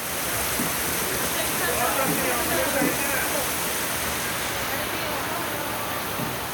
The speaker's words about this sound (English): That's the sound of a downpour in Uncheprang just a few weeks ago. It sounds heavy, but it's just the start.